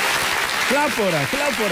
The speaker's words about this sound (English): make a fair clap for 75 years old man.